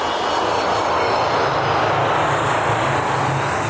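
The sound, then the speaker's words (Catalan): A spaceship taking off, as a sound effect for a trip to seven magic moons: a loud, dense, rushing roar that stays strong and steady throughout, with no voices over it. “cordeu-vos bé els cinturons i gaudiu del viatge per explorar el destí i desvelar alguns misteris màgics. Som a punt d'enlairar-nos cap a les 7 llunes màgiques. 3, 2, 1, 0.”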